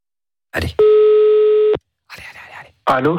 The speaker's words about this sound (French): On l'appelle, c'est parti.